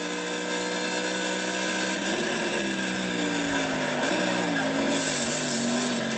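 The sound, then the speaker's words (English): Race car V8 engine working through a chicane, a loud, unbroken roar whose pitch rises and falls a few times as the car slows in and powers back out. “Let's listen to that V8 as we come into the chicane and out.”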